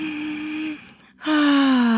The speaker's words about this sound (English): take a deep breath.